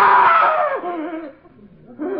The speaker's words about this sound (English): Why did you call for help? What made you scream?